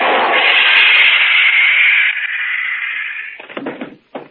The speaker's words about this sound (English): That stun gun blast ought to keep him on ice for a couple of hours.